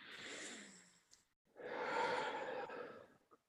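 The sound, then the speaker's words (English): A deep breath in and out during a guided breathing exercise: a soft inhale, a brief pause, then a longer, fuller sighing exhale, heard alone and quiet. “And then I gently want you just to take another breath in and out.”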